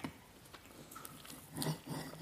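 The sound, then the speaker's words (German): Chewing of fluffy pancakes, a few soft, moist bites and smacks at low volume, with a slightly louder cluster of chews near the end and no talking. “Übrigens, die Pancakes sind lecker, fluffig.”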